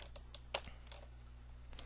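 Keystrokes on a computer keyboard as a password is typed, a few light, irregular clicks with one sharper tap near the middle and another at the end.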